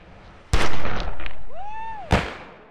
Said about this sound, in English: There were two shots fired from two different guns.